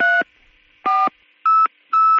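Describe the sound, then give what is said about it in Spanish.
Telephone keypad tones beep while a number is dialed, four short, evenly spaced electronic tones, each clean and steady in pitch, with a faint constant hum between them. “Espera un momento, se lo voy a confirmar. Márqueme usted el 34.”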